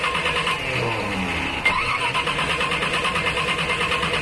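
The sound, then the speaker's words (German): A car engine failing to start, with the starter cranking repeatedly in a loud, rhythmic, churning pattern that never catches into a running idle. No other sounds stand out. “Es gibt da aber ein kleines Problem. Das Auto springt nicht an.”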